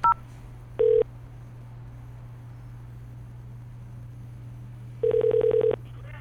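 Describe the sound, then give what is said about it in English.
Telephone keypad dialing tones on a call to a motel: a couple of separate beeps near the start, then a quick run of about seven evenly spaced tones near the end, over a steady low hum. “Dial it now, or dial 0 for the operator.”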